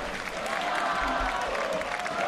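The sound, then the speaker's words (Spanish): Crowd applause in the stands of a football ground, greeting a new arrival. A steady, fairly faint wash of clapping runs throughout with a low crowd murmur beneath it. “La gente está aplaudiendo aquí porque acaba de llegar Donato.”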